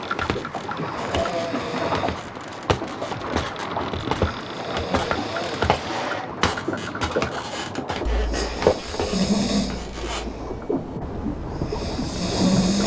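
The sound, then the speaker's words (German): A man asleep in a hammock below deck snores: slow, rasping breaths that repeat several times over a steady, rumbling background. “Hört ihr das? Da unten schnarcht einer. Das ist bestimmt der Besitzer.”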